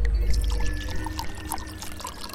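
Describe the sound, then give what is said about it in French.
Red wine, a Belgian red, pours steadily from a bottle, making a continuous gurgling, splashing flow that holds a fairly even level throughout. “Et c'est le moment d'ouvrir notre troisième bouteille. Donc un rouge qui vient de Belgique”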